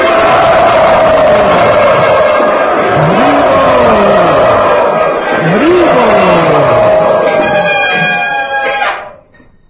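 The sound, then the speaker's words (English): A crowd of devotees chants loudly together, a dense mass of voices with sweeping, rising and falling pitch that stays strong throughout before dropping away at the very end. “We would like to welcome all of these wonderful devotees to our program here by loudly chanting.”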